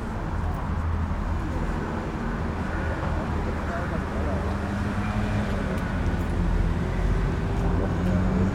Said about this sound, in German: Also ich höre jede Menge Autorauschen.